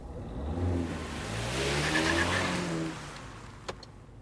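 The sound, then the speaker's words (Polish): Car engine accelerating to overtake at 90 km/h, a steady droning roar mixed with road noise that eases after about three seconds, followed by a brief click. “Wyprzedzamy jadąc 90. No to jazda.”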